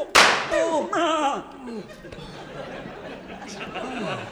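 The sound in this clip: A gunshot in a radio drama: one sharp, loud crack right at the start, followed by voices exclaiming and talking.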